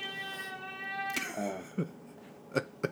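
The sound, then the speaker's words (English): A cat on a table gives a long, drawn-out harmonic meow, followed by a few shorter, fainter sounds. “it's fucking cat, man. He's on the table now.”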